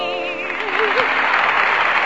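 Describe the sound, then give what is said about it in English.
Audience applause at an amateur singing contest swells into a steady, dense clatter after a brief sung phrase at the start, then holds at an even level. “And that completes our amateur contest for tonight, ladies and gentlemen. And while I look at the applause machine”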